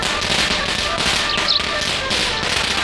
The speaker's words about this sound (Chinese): 爸爸，怎么这么早就放鞭炮了？离春节还好几天呢。